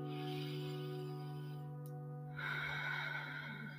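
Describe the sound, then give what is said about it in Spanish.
One deep breath from a speaker leading listeners in breathing along, a soft airy rush rising partway through, over steady sustained tonal music. “Voy a respirar profundo. Si usted quiere, puede respirar conmigo.”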